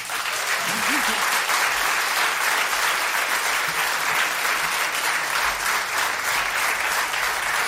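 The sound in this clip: Steady audience applause, a dense crackling wash of many hands clapping that holds at an even loudness for the whole stretch without pausing.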